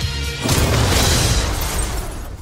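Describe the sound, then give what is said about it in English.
A photon blast fired from a sci-fi energy weapon bursts in abruptly after a quiet moment, a loud roaring whoosh that holds for about two seconds before tapering off. “That's a photon blast.”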